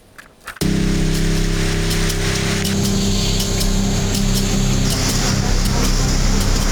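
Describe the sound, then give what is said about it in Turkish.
Dense, steady hiss of a sudden heavy downpour with hail that caused flooding in Gümüşhane. It bursts in abruptly after a brief quiet moment and stays loud, with a low steady hum beneath. “Gümüşhane'de aniden bastıran yağmur hayatı olumsuz etkiledi.”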